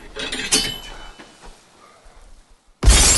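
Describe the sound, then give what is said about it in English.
Window glass smashes as a man crashes through it during a rainy-night attack. A sudden loud, harsh crash bursts in at the very end, following softer scattered knocks and rustling. “Jason crashes through the window behind Clay, grabbing him.”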